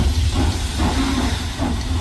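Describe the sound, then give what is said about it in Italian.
A historic steam locomotive hauling three carriages on the Udine–Pordenone run gives a steady, loud hiss of steam over a continuous low rumble, without pause. “Il treno storico di Pordenone Legge fa la sua tratta. Udine-Pordenone. I tre vagoni arrivano in una nuvola di fumo, trainati da una locomotiva che sbuffa.”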